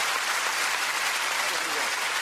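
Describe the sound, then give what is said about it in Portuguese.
Loud, steady audience applause for a guest, a dense and even roar of many hands clapping without break. “Quero aplauso para ele. Muito forte.”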